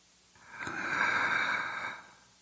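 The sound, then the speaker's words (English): One deep breath drawn in, a soft airy inhale that swells gradually, holds for about a second, then tapers off into quiet. “Let's start today by taking a deep breath.”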